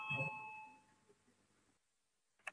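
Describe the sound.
A parliamentary bell rings to call a vote: a fairly faint bright chime that rings out and slowly fades to near silence, then a short, sharp sound at the very end.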